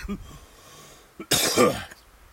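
A person coughs after inhaling a bug, one harsh, loud, rasping burst preceded by a brief, quieter sound.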